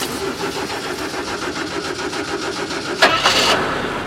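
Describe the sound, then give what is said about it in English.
A BMW car engine cranks with a steady, rhythmic whirring for about three seconds, then catches and fires with a sudden louder burst before running on. “Come on, turn over. Please. You call yourself a BMW?”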